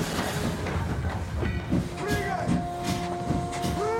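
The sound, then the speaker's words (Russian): Uncoupled railway wagons rolling along the rails give a steady rumble with rhythmic wheel clacking, joined in the second half by sustained metallic squealing tones. “Отцепившиеся вагоны продолжают катиться по рельсам.”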